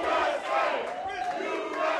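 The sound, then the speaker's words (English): A gym crowd cheers and chants as boxer Claressa Shields enters the ring, with many voices raised together in a sustained, rolling roar that dips briefly before surging again. “After walking around the gym, Shields finally climbed into the ring to cheers and chants and showed off the footwork and punches that won her the gold.”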